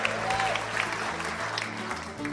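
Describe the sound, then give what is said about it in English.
Applause from a live audience at an evening show with several acts, a steady wash of clapping that runs the whole way through over a low hum. “Give yourself a big applause.”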